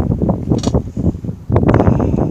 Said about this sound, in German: Ihr glaubt gar nicht, was hier für ein Wind ist.